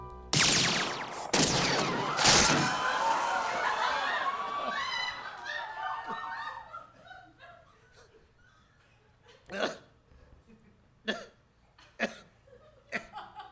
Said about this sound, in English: No, but I fired into the air. Yeah, and I meant to.